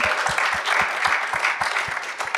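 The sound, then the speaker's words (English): Audience applause, a dense steady patter of many hands clapping at even loudness, with a regular low thumping beat running underneath. “Can we give Claire a huge round of applause?”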